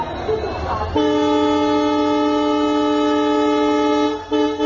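A train horn sounds one long, loud, steady blast with a rich harmonic tone that cuts off abruptly near the end. A brief murmur of rumbling noise comes before it.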